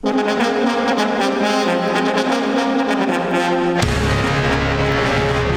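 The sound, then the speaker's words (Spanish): Theme music for a Major League Baseball segment on a Spanish-language sports show: loud, full and sustained, with steady tonal layers, then an abrupt shift to a new section near the end. “Ahora sí, la musiquita del béisbol de las Grandes Ligas.”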